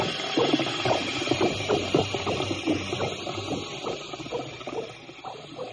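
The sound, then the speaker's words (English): Gears and ratchets clatter from an invented necrodialysis machine: many quick, rhythmic mechanical clicks over a steady whirring background, loud at first and easing slightly toward the end. “I am a necrodialysist. And the machine that I have invented is the necrodialysis machine.”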